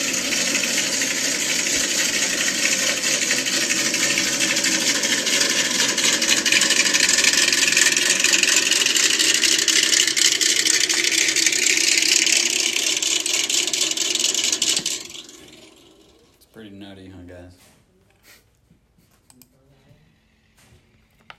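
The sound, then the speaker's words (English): A truck engine idles with a steady, loud rumbling drone for about fifteen seconds, then drops away to quieter, scattered sounds. “I think you want your truck to sound like this.”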